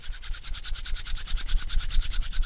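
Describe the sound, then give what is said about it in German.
Palms of the hands rubbed quickly together give a rapid, steady swishing friction, with many even back-and-forth strokes in a brisk, regular rhythm that never pauses. “ganz schnell aneinander reiben. Wirklich schnell, sodass Wärme entsteht. Und mach das mal 10, 20 Sekunden lang. Spür mal, wie warm diese Handinnenfläche wird.”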